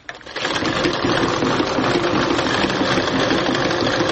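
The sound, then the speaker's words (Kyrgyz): A sewing machine stitches a belt, starting up after a brief quiet moment and then running as a steady, loud, rapid whirring hum until the end. “кемер тигип атам азыр оймалар түшүрө элек просто эле буну тигип атам анан оймаларын кийин түшүрөбүз”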